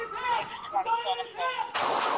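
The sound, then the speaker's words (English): An officer fires several rounds from a duty handgun during a police confrontation, a sudden loud burst of gunfire at the very end following a raised voice. “The officer reported he believed the subject posed an imminent threat, and that officer discharged multiple rounds from their duty handgun.”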